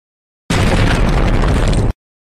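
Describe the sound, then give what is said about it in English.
Bombs explode and destroy a spaceship in one loud, dense burst of roaring, crackling noise. It starts abruptly, holds at full strength for about a second and a half, then cuts off sharply. “The bombs might have destroyed your ship, but the shockwave landed us on the station.”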